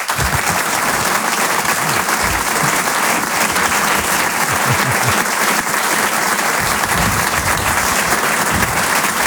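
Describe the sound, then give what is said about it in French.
Sustained ovation for a comedian at a comedy show: loud, dense clapping that holds at a constant level for over nine seconds without pause. “Je vous demande une ovation, s'il vous plaît, pour Selig.”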